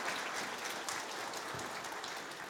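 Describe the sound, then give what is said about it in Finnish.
Faint audience applause after a karaoke song in a radio studio, a steady, even patter of many hands that holds for the whole short clip with no voices over it. “Aplodeja.”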